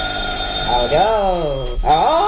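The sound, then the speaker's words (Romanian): A household telephone rings, a steady high-pitched bell tone that continues beneath a person speaking. “Aoleu, cum țârâie drăcovenia aia. Parcă-mi găurește urechile. Păi da, e telefon să țârâie.”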